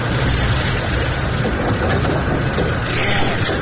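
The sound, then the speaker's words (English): A fictional biogenic generator powering up at maximum power: a loud, steady rumbling drone with a broad hiss, continuous and unbroken, with no voices. “Main power to maximum. Biogenic generator engaged.”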